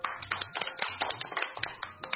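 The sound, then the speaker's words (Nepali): An audience of friends claps after a riddle presentation, with many sharp, distinct hand claps in a loose, uneven patter at a moderate, fairly quiet level. “ताली बजाएर साथ दिनु भएकोमा मेरो यहाँ हुने साथीहरूलाई पनि”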